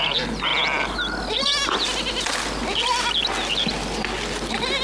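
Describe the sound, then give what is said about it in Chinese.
Lamb bleating in repeated wavering, fairly high cries, loud and overlapping, with several bleats one after another across the whole stretch and no talk. “俺打小就喜欢羊，你看，多温顺，多善良啊。”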